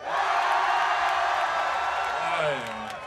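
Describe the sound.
A festival audience shouting and cheering in a loud, sustained roar for about two and a half seconds, then easing off as a single voice emerges at the end.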